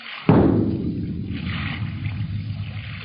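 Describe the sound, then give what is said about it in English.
Ship's bow gun firing a warning shot at sea: one sharp, heavy boom at the start that rolls off into a long, low rumble over continuous engine and water noise. “Bow gun, fire when ready.”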